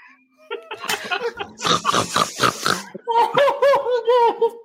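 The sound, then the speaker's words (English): A person imitates a boar's grunt, making a few rough, snorting grunts and then a longer run of loud, voiced grunting squeals with a throaty, nasal tone. “Let's hear your boar sound.”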